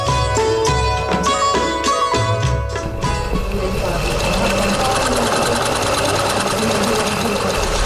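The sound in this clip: A sewing machine stitches cloth in a few quick, rattling bursts of rapid needle strokes. Then it settles into a steady, continuous mechanical whirr with a low, engine-like hum.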